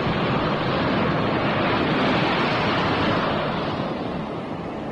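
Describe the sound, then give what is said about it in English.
Waves of an incoming tide make a dense, steady roar of surf mixed with wind noise. Loud and unbroken, it eases slightly toward the end, with no voices. “Don't be too long. The tide's coming in.”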